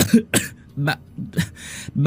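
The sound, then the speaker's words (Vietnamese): An old woman coughs violently: several harsh, raspy bursts in an uneven rhythm, separated by short gaps of quiet. “bà ho sặc sụa, phun ra một ngụm máu rồi ngất lịm”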